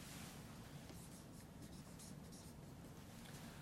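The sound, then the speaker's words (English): Faint scratching of a pen or pencil writing notes, a soft, continuous rubbing texture, very quiet and alone. “I'm going to write some of these down.”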